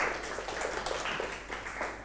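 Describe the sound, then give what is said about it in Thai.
Students in a classroom clap to applaud a classmate's correct answer in a geology lesson. The clapping is quiet and fairly dense, with many overlapping claps. “ยอดเยี่ยมมากครับปรบมือให้เพื่อนหน่อยครับ”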